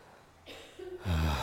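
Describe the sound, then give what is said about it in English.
A person takes a deep breath: a long, breathy rush of air that builds in loudness over about a second and ends with a fuller, voiced tone. “Let's take a deep breath.”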